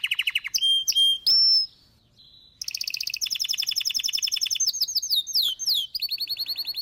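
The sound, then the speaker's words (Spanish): A wild canary sings in the countryside of the Canary Islands, pouring out loud, high, rapid trills and chirping phrases in varied bursts, with a short quieter pause partway through before the song resumes. “Así suena el susodicho canario en el campo, en el monte, en los parques y montes y montañas de Canarias.”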